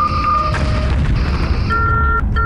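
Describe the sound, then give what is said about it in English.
Starship phasers firing a volley, a loud synthetic energy-weapon blast with a heavy booming rumble and sustained high tonal whines that cut out briefly and then resume. “Solution received. Firing all phasers.”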